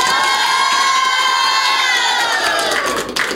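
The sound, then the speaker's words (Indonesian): Loud audience cheering with high, shrill shouting that sounds like children, held at a steady level throughout, then scattered clapping breaking through near the end. “Sekali lagi dong, berikan aplaus yang meriah untuk Fakih.”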